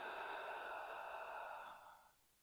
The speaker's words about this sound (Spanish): Inhala por la nariz. Exhala suave por la boca. Inhala. Exhala por la boca.